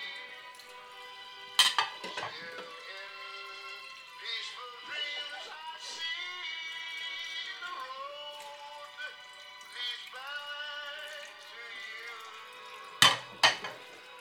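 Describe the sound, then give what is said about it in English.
Plates clatter and clink while being rinsed in a sink, with a few sharp knocks and ringing ceramic tones over a steady background and louder clanks near the start and end. “Gonna rinse the plates real quick so that they're easier to deal with.”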